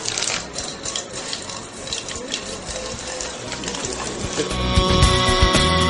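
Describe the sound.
Asturian cider (sidra) being poured in a lively Asturian eatery: a steady hissing, splashing rush of liquid that grows louder toward the end, over a busy background of voices and clatter.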